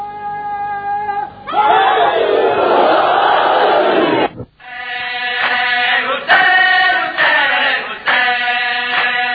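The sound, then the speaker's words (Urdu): A crowd chants an oath slogan with both hands raised. One voice sings alone before a massive unison roar of many voices. The solo voice then returns with the crowd's sound swelling back in. “دونوں ہاتھ اٹھا کر حلفیہ نعرہ”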